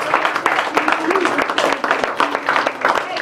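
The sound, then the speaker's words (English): Hands clap in praise during energetic worship, a quick rhythmic patter of claps mixed with voices. “Get my hands, clap of praise.”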